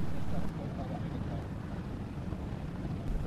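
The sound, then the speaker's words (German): A car drives along a country road loop with a window rolled down, giving a continuous roar of wind buffeting and low road rumble. “Wir befinden uns jetzt gerade auf einem Rundweg namens Ortolanstraße, um hier den Ortolan zu hören und fahren diesen mit dem Auto ab.”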